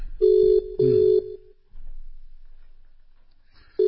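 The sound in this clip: A telephone rings on an outgoing call placed from a radio station: a loud double ring burst, a long pause of line hiss, then another ring starting at the very end.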